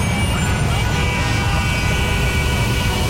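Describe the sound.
Traffic-jam noise for a radio advert: a dense, steady roar of idling and rumbling vehicles that holds constant throughout without breaks.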